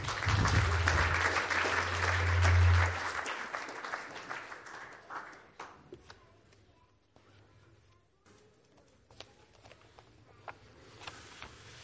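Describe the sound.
A church audience claps loudly to welcome a speaker to the podium. The dense applause lasts about five seconds, then thins into scattered claps and quiet shuffling.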